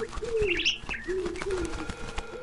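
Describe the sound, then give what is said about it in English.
Pigeons coo in a few soft, low rolling calls, joined briefly by a higher, brighter chirping bird call over a steady background hiss. “But suddenly, I heard the cooing of pigeons, the chirping of parakeets, and the flapping of wings.”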